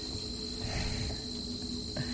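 Crickets and cicadas chirp in a dense, steady insect chorus, a continuous high buzzing drone that holds an even level throughout with no clear breaks.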